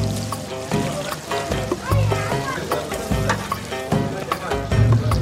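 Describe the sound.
Food sizzles and crackles as it fries in a pan after being dipped in egg, a steady hiss under people talking and children's voices.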